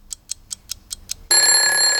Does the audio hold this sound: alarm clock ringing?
yes